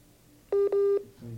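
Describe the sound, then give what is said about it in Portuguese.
Telephone tones on a live radio call-in as the call breaks up and drops: two steady electronic beeps, the second longer, sounding alone over faint line hiss, with a soft low hum trailing afterward. “Está caindo aqui. Vamos tentar ligar do próprio celular”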